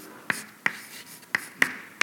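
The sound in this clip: Writing of an equation on a board: a few sharp taps and short scratchy strokes spaced irregularly, fairly faint, with no speech over them.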